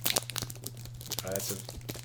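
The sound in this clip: A foil pack of trading cards is torn open with a crinkly, crackling rip of thin foil in several uneven bursts, over a steady low hum.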